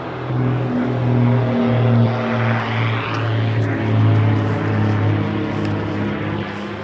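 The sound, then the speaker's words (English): Low-flying aircraft overhead in the early morning: a loud, steady engine drone with a strong low hum that holds throughout, without voices. “Low-flying aircraft.”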